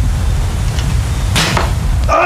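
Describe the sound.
A thrown arrow or dart strikes a picture during a wrestling broadcast segment: one sharp, noisy whoosh-and-impact burst rises out of constant background noise, and a brief second sound follows near the end.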